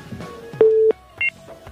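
Telephone keypad tones from a call connecting to a call-in line: two clear beeps, the first longer and steady, the second short, over a low background hum.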